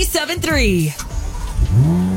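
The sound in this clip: A car engine accelerating, a short, loud revving burst whose pitch shifts as it pulls away.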